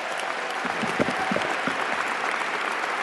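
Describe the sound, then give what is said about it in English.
Warm, sustained audience applause after musicians perform at a celebration honoring Dr. King, a thick, even roar of clapping holding at a constant level throughout. “can we have another round of applause for the incredible musicians and song?”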